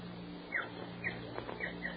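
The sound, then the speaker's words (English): Small bird chirping: a few faint, short, high chirps spaced across two seconds over a steady low hum. “Oh, what a darling little bird. Oh, hello there, little fellow.”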